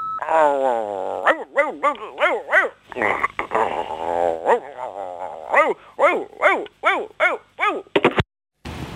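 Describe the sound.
A person imitates a barking dog in a phone message. Many rapid, voice-like barks and yips come in bursts, some growly and some whimpering, moderately loud with brief gaps between.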